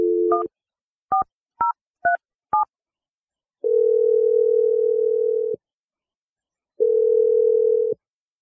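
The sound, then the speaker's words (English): Touch-tone telephone dialing: a few quick, evenly spaced keypad beeps, then two long, steady ringing tones separated by a gap of silence. “All right, here we go. I'm dialing the number right now.”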